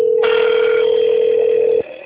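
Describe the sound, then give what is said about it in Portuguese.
A steady, mid-pitched telephone tone marks an incoming call, holding for under two seconds with a brighter buzzy layer joining just after it starts, then cutting off abruptly. “Tá ligando pra mim aqui hoje.”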